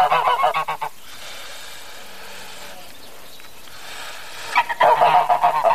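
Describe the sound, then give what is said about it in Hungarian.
A gander, a male domestic goose waiting to be fed, honks in rapid bursts of loud nasal calls at the start and again at the end, with a quieter noisy stretch between. “Táskás dödöllét figyelgető Gunár hajnali 7 óra óta etetésre vár, de vendégek gyűnnek, fontosabb az étel.”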